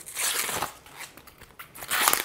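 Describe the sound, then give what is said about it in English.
Crisp crunching and crackling come from outer leaves being peeled off a green cabbage. A few rustling, tearing bursts follow one another closely, with no voices. “So first I'm gonna peel off these outer leaves.”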